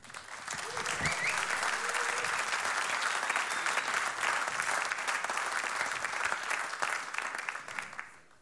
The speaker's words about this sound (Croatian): Molim vas, jedan veliki pljesak Elvis Penava.